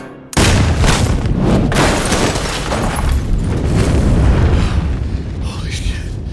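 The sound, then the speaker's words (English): A shotgun blast fired amid flames and debris: one abrupt, loud boom that gives way to a dense, sustained roar of rumbling noise lasting several seconds. “The shotgun blast had blown a hole in the man and sent him flying into a pile of debris in the flames.”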